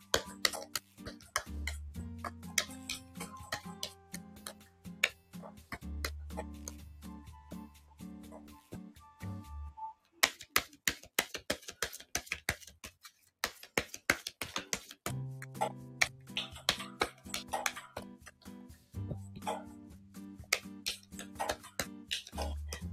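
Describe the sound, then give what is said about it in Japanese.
Tarot cards being shuffled over and over in quick, dry clicks and flicks that come in irregular bursts, over soft background music with steady low tones. “ちょっとひたすらちょっとカードを切ってるので、少し無言が続いてますけどね。”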